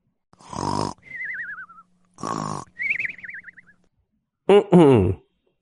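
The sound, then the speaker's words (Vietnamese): Exaggerated snoring from someone deeply asleep slumped over a desk: two rasping snorts, each followed by a wavering whistle on the out-breath, then a louder, voiced grunting snort. “Buổi sáng ngày hôm sau, Triệu Ngọc ngủ say ngáy khò khò.”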